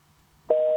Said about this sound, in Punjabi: ਨਹੀਂ, ਡਿਸਕਨੈਕਟ ਹੋ ਗਿਆ, ਜਾਂ ਤੇ ਕਿਸੇ ਲਾਈਨ ਦੇ ਵਿੱਚ ਥੋੜਾ ਬਹੁਤ ਕੋਈ ਫਾਲਟ ਹੈ।